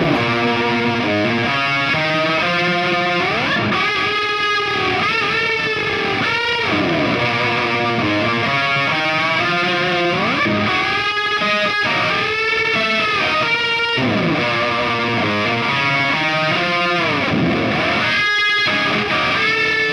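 An instrument plays through an effects pedal set to add an octave on top. It is a loud, continuous, heavily distorted and buzzy riff with shifting notes that runs without a break.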